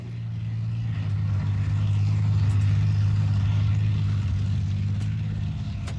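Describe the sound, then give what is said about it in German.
Deep, steady rumble of a tank engine that is failing to take throttle, holding a low, loud drone throughout with no clear rev or rise in pitch. “Hier Alpha 3, der Panzer nimmt kein Gas mehr an, wir können nicht mehr weiter.”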